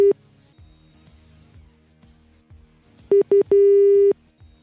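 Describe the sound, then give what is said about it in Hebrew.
Telephone line tones while a caller waits on hold: a brief beep at the start, then later two short beeps and one longer steady tone, all loud and clear over faint, low, irregular pulses. “הנה הוא בממתינה, תענה את הטלפון.”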